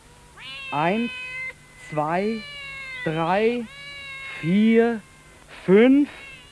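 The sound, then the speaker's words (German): A gathering of cats meowing, with about five drawn-out, wavering meows in a row, some overlapping and rising into yowling cries, fairly loud over a quiet background hum. “Mensch, was ist da denn los? Nun guck dir das mal an. Eine Katzenversammlung. Eine richtige Versammlung.”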